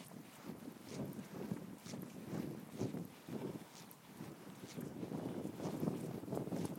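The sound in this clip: Wind buffets a microphone outdoors, producing faint, low rumbling gusts that swell and ease irregularly, with soft bumping pulses scattered throughout and no voices.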